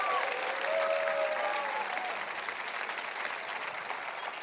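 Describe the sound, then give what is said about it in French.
A church audience applauds and cheers, with sustained massed clapping and high cheers over it early on, easing slightly in level toward the end. “Et tout le monde de Nouvelle-Vie dit Amen et acclamez. Poussez un cri et acclamez le Seigneur avec moi.”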